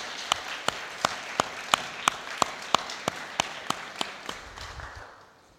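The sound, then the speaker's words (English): Rhythmic clapping from a church audience applauding the property committee, about a dozen sharp, evenly spaced claps at a steady pace that grow fainter and die away at the end. “Can I ask all of us to put our hands together for Dawn and the property committee for the good job they have done?”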